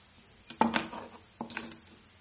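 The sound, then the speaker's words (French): A knife clatters against a plate while cutting meat, held by someone without a thumb: two brief, fairly faint bursts of metallic clinking and scraping about a second apart. “Voilà mon couteau quand je n'ai plus de pouce. Et je vais manger, je vais couper ma viande, je vais faire ma tartine.”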